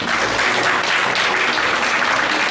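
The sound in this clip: Audience applause welcoming the Hong Kong team, a thick, even roar of clapping that continues without pause throughout.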